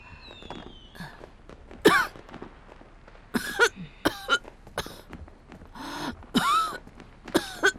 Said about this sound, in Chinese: 怎么又开始咳嗽了？不是说已经好不少了吗？